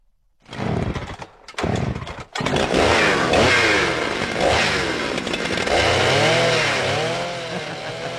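A chainsaw runs in a neighbourhood after a storm. It gives two short loud bursts, then a sustained rasping engine drone whose pitch keeps revving up and down.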